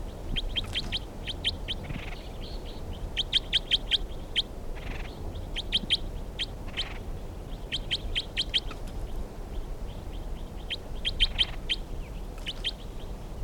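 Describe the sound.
Bird song: many rapid bursts of high, thin chirps repeating in phrases over constant background hiss, with no people talking.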